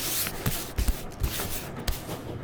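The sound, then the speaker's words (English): Playing cards being shuffled and moved in a card trick: a soft, papery rustle broken by a few light slaps and taps, quiet and without voices. “Watch now the whirling cards. They shift, they lift, they dive.”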